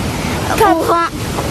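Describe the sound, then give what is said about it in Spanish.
Steady rushing roar of a waterfall fills the short clip, with a voice speaking briefly over the broad watery noise. “Los saludo desde la cascada”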